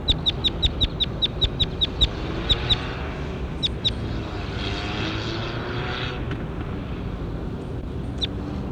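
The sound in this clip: Short, high bird calls during a field recording, repeated in a quick even series at first and then scattered, over a loud, steady, low drone from a propeller aircraft.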